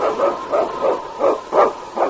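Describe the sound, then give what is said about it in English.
Husky sled lead dog of the North Country barking six times in a steady, evenly spaced rhythm, each bark loud and mid-pitched, with no voices. “It's King, swiftest and strongest lead dog of the North Country, blazing the trail for Sergeant Preston of the Northwest Mounted Police”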